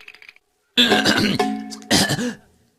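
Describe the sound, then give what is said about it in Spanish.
Throat clearing in two gravelly, voiced bursts, the second shorter than the first, loud and with no other speech. “Solo me aclaraba la garganta.”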